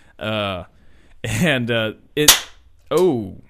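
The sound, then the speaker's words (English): A replica toy cap gun made in Italy fires once with a single sharp, bright crack, set between short bursts of voice. “This one was a $20 cap gun and made in Italy.”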